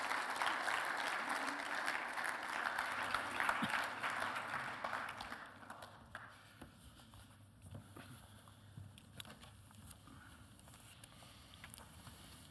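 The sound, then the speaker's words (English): Audience applause welcomes two speakers to the stage, a dense wash of clapping that holds steady for about six seconds and then thins out and fades to scattered, quieter sounds. “Why don't you put your hands together?”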